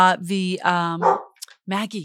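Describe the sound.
A border collie barks and yelps in a few sharp, high, bouncy bursts, pauses briefly, then gives one more bark.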